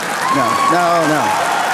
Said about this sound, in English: Thank you for that smattering of applause there.